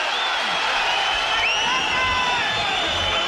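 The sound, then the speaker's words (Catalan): Crowd at a futsal match protesting an uncalled foul: a sustained, loud wash of shouting and jeering voices with no pause throughout. “I el públic que reclama una falta damunt Ernesto, que no han assenyalat els àrbitres.”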